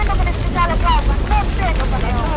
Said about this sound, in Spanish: Y van a escuchar cómo una cuadrilla, es una recreación de cómo una cuadrilla de bomberos trata de luchar con medios escasos, que es lo que pasa casi siempre, contra el fuego.